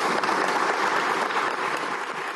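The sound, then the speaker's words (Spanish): Audience applause as a tribute to murdered and disappeared women journalists at a women journalists' forum in a cultural centre: dense, steady clapping from many hands, continuous and even throughout. “Pedimos a quienes nos acompañan dar un minuto de aplausos como homenaje a todas las periodistas que han sido asesinadas y desaparecidas por su labor periodística.”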